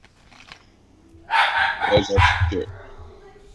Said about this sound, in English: That is a dog. Don't worry about him.